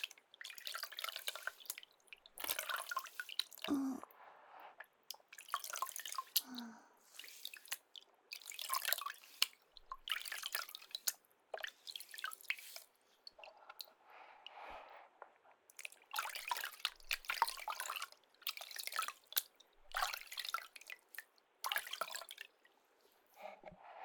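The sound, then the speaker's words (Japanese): Water splashes and drips as someone thoroughly wets the back of their head while washing their hair. Many short, irregular wet bursts come one after another, fairly faint, with no talk. “頭の後ろもよく濡らして、ジャブジャブ。”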